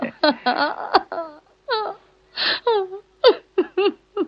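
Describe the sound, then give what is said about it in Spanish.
A woman crying, with many short wailing, sobbing vocal bursts, several with falling pitch, loud and separated by brief pauses. “Ahora estoy llorando, ¿lo ves?”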